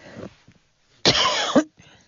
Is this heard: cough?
yes